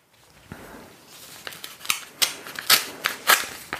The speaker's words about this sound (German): ich habe hier noch einen Umschlag. Ich habe jetzt hier noch die Nummer 5. Okay. Die mache ich mal auf.